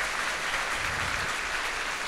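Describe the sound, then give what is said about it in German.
Applause from an audience after congratulations on passing a final teaching-certification state exam: a dense, loud, continuous wash of many hands clapping, steady for about two seconds with no voices. “Applaus!”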